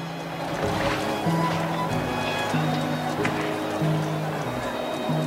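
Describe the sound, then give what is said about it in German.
Ambience of a 19th-century European industrial city from a city-building strategy game: a dense, steady bed of mixed noise with low sustained hums and murmuring voices mixed through it. “Das ist der Sound einer europäischen Großstadt im 19. Jahrhundert zur Hochzeit vielmehr der industriellen Revolution.”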